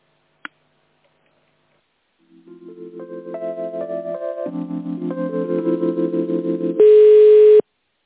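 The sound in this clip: Telephone line tones while a call is put through: a single click, then a pulsing series of beeps stepping upward in pitch, ending in a loud, steady tone.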